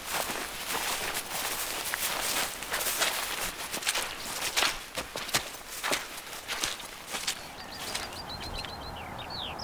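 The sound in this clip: Footsteps on a dawn walk leaving woodland for open ground: a steady, continuous run of crunching steps, with faint high bird calls entering near the end.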